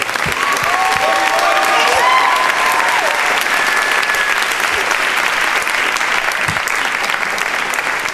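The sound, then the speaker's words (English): Talk show studio audience applauding as a guest is welcomed on stage, a loud, continuous patter of many hands clapping that holds steady for the whole stretch. “Guys, give a warm welcome to the hottest guest we've had in years. Please welcome Riley McDevitt.”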